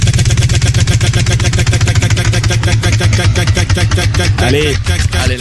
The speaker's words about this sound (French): on fait tourner la roue, tu nous dis top